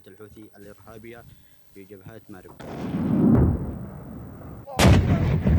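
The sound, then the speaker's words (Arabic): Artillery shelling by Yemeni government forces on Houthi positions on the southern Marib fronts: heavy booming blasts and a deep rolling rumble, with a second sharp blast later. A voice talks briefly before the firing starts. “نشر المركز الإعلامي للقوات المسلحة اليمنية مشاهد لما قال إنها قصف مدفعي نفذته القوات الحكومية على مواقع وتجمعات للحوثيين في جبهات مأرب الجنوبية”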